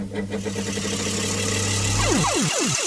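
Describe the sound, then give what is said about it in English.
A 1979 electric tombola drum is switched on and spins, giving a steady, loud motor-like whirring hum that ends with several quick descending sweeps. “And effectively, you switch it on like this.”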